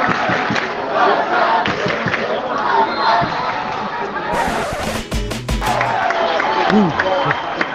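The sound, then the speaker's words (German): Barça B football fans cheer and chant in a stadium after a 2-2 equaliser against Castellón, a dense continuous crowd roar with a brief, sharper burst of noise midway through. “Bisher haben die rund 200-300 Fans eben aus Castellón für ganz gute Stimmung gesorgt. Aber jetzt hört ihr, wer hier jetzt tonangebend ist.”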